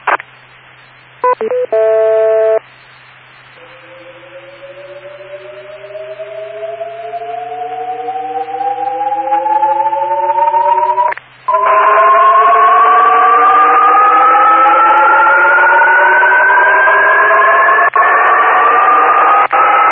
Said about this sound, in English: let me play a tone, and I'd like people to explain to me what they hear. Do they hear something go up and down? Do they hear something stay the same?